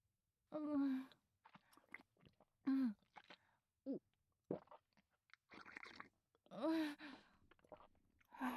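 Slurping and chewing while eating ramen made with vinegar: a few quiet bursts of noisy slurps and mouth sounds mixed with voiced hums and murmurs, separated by short pauses.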